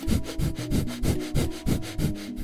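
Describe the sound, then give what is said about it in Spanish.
Rapid, short nasal breaths in a breath-of-fire exercise, breathing in and out through the nose only. Many quick, even puffs of airy hiss follow each other in a steady rhythm, with no talking. “Este ejercicio se llama fástrica y va a ser solo por nariz, inspirando cortito y exhalando cortito.”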